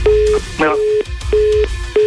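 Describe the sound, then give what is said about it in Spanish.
A telephone ringing tone sounds after a number is dialed: a few short, steady mid-pitched beeps repeat in a regular rhythm, with a low rumble underneath. “Ahorita le voy a marcar a Fer y le voy a preguntar.”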